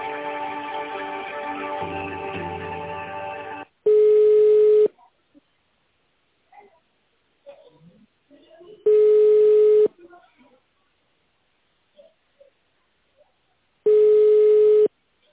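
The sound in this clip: Phone ringback tone while a call connects: three evenly spaced, one-second steady beeps about five seconds apart, each clear and fairly loud, with near silence between them.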